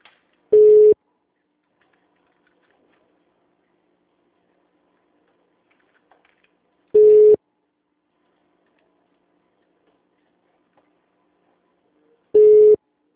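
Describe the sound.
Telephone tone after a call drops: three short, steady beeps spaced several seconds apart, each standing alone against silence.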